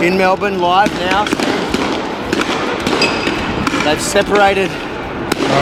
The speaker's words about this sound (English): But what you heard there was a sound of rubber bullets and tear gas being fired at people who were actually peacefully watching.